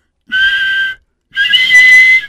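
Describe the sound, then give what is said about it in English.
A human whistler performs a double whistle: two loud, shrill, sustained tones with rich overtones, separated by a short pause, the second longer than the first. “start off with a double whistle. This is a double whistle.”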